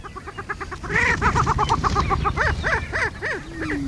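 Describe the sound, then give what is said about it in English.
Booming mating calls of wild chickens that puff out orange air sacs on their necks: a dense chorus of many repeated hooting and cackling calls overlapping throughout, ending with one long, even tone. “So that sound was the mating call? Yeah, so the booming is, you know,”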